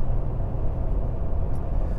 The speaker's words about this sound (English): I'm going into the big city, so I'm driving on the highway here.